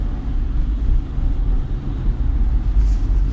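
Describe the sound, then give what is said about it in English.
A car driving home from work on icy roads during freezing rain in Houston. A steady, loud low rumble runs unbroken throughout. “we're getting a lot of freezing rain, and I'm driving home actually from work,”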